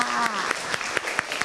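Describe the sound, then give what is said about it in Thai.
Applause from a classroom of students clapping for a group after its presentation: a dense, steady patter of claps with a few sharper peaks, a voice briefly overlapping at the start. “ปรบมือให้เพื่อนกลุ่มหนึ่งด้วยค่ะ”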